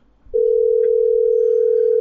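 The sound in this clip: Telephone dial tone heard while a number is being dialed: a loud, steady, unbroken single tone that starts after a brief quiet moment and continues alone to the end.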